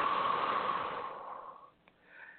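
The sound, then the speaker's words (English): Deep breathing in and out during a relaxation exercise: a long, airy breath that gradually fades, followed by a brief pause and a softer breath starting up. “Breathe in. Breathe out.”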